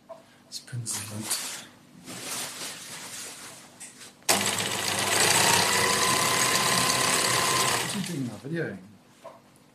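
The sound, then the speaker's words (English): Sewing machine stitching a big piece of green screen fabric meant as a backdrop: a loud, steady mechanical whir lasting about four seconds, preceded by people talking. “He's sewing a green screen. It's a big piece of green material that he's going to use as a backdrop”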